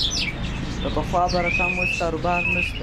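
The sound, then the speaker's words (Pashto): Birds sing at a bird market in Kandahar where canaries and nightingales are sold, giving bright chirps and warbling trills over a constant background din. People talk nearby. “د کندهار ښار د مرغانو بازار کې کینری، واټر چوغه کې بلبلان، توتیان، زرکی، کرکان او ډول ډول مرغان سته”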